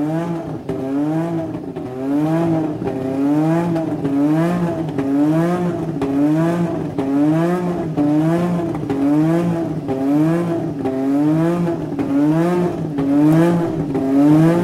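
Formula 1 race car engine revving between 9000 and 10000 rpm, a loud continuous whining roar whose pitch rises and falls in a regular cycle about once a second, sustained throughout.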